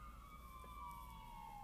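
Emergency vehicle sirens outdoors: a faint, steady wailing tone that slowly slides lower in pitch, with a low rumble of background noise and no voices.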